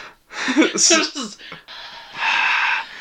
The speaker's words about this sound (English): Sensual voices. Oh my God. Let me breathe heavily for you.